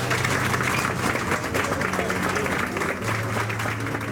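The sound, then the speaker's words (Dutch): Loud applause from a crowd follows a government apology for slavery, a dense, steady clapping roar that fills the whole clip with a voice faintly audible beneath it. “Gevolgd door een luid applaus.”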